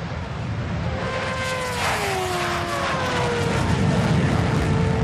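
Roaring engines from a 400-metre drag race of motorcycles, supercars, a Formula 1 car and jets: a loud, continuous roar with a whining engine tone whose pitch sweeps downward as a vehicle passes.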